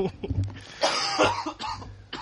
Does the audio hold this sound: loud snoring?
no